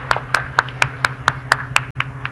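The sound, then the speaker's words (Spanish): Congregation clapping together during a Catholic Mass after the Gospel reading, about nine sharp, evenly spaced claps in a steady rhythmic beat. “Un aplauso al mensaje de Jesús, palabra viva del Señor.”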